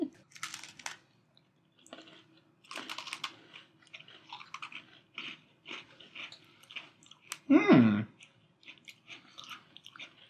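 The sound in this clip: Crunchy chewing of a brownie-flavored Oreo cookie during a tasting, heard in irregular soft bursts with quiet gaps and one louder burst near the end.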